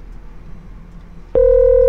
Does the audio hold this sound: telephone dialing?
yes